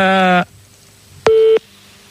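Phone ringing tones on an outgoing call: two short electronic tones separated by a pause, the first buzzy and rich, the second a clear steady mid-pitched tone.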